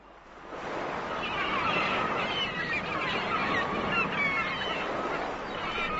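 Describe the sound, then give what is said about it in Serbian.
Waves wash steadily against a sea shore in a continuous broad rush, with honking goose-like bird calls rising above the surf. “Kako je dobar osjećaj kada bosim nogama hodaš po morskom žalu, a talasi te udaraju po listovima.”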